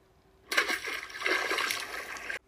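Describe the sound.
A golden ball drops into a pond with a sudden watery splash. Sloshing, churning water follows for about two seconds before it cuts off abruptly.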